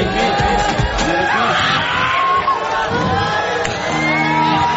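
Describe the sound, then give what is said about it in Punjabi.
A crowd at a live music show cheering and shouting in a loud, continuous roar that carries through the whole stretch. “ਤਾੜੀ ਤਾਂ ਮਾਰ ਦੋ ਮੇਰੇ ਵੀ ਪਿੱਛੇ ਵਾਲੇ ਤੁਸੀਂ ਮਾਰ ਦੋ ਵੀ ਆਈ ਪੀ”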